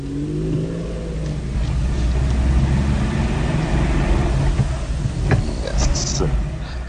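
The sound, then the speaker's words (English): A Citroën GS car driving, its engine giving a steady drone with shifting harmonic tones, while people talk over it. “I hope you like the drive. I did. And, I love the sounds as well. Amazing, eh? yes. It's typical of this Citroën GS.”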